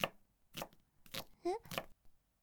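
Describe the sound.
Kitchen knife chopping: a few sharp, evenly spaced chops on a board, separated by brief quiet gaps. A short voiced sound falls between the chops, and the whole passage is fairly faint.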